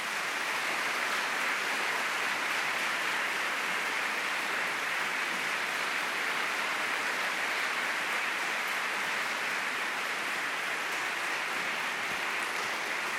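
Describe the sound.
Audience applause at Princeton welcoming Tom Brokaw, a dense, steady wash of clapping that holds at an even level for about thirteen seconds with no talk over it.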